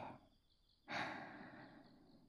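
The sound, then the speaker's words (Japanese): A slow breath drawn in through the nose: a soft, airy hiss that begins suddenly and trails off gently over more than a second, faint and unaccompanied by talk. “鼻から息をゆっくり吸って、”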